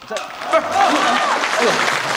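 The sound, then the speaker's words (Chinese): Audience applause at a Chinese stage show about Peking opera: steady, dense clapping fills the whole stretch while a man's voice talks over it. “这不是，您还给我鼓掌，这是是吧？”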